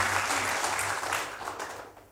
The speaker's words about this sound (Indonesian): Tepuk tangan yang paling meriah Bapak Ibu sekalian.